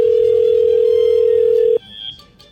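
A telephone tone during an outgoing call: one loud, steady, unbroken tone held for nearly two seconds that cuts off abruptly, leaving faint line noise.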